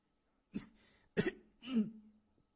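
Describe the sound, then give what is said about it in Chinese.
A man clears his throat with a few rough, low bursts, the last trailing into a hoarse voiced rumble, with quiet gaps between them. “王义凯清了清喉咙，声音嘶哑低沉的说”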